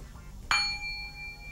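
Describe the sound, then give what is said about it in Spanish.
A small gong is struck once, giving a bright metallic clang whose high ringing overtones hang on quietly over a soft, steady background hiss. “¿Sabés tocar el gong? ¿Este es un chino o es un japonés?”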